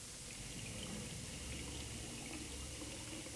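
Water running from an open tap into a glass, a steady, unbroken rushing hiss that holds at an even level throughout, with no voices over it.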